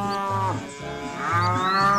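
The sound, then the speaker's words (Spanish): A cow moos in long, low, drawn-out calls with a rich harmonic tone. The calls are loud and steady, with a slight dip in the middle, and no voices are heard. “A los que están criando ganado, ordeñando las vacas, allá lidiando con los terneros, con las terneras.”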